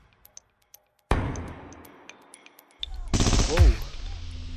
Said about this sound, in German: So klingt ein echtes Gefecht mit scharfen Waffen.